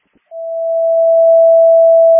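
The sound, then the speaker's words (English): A fire station alerting system sounds an RF test tone: after a faint click, a single pure, steady pitch starts and holds to the end, growing slightly louder as it sustains. “can you set off a test tone at station 4 only of the RF tones. The RF tones only for Station 4.”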